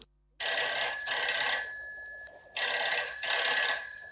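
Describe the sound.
A telephone rings in two paired bursts, a bright, steady electronic trill with a short pause between each double ring. No one speaks over it.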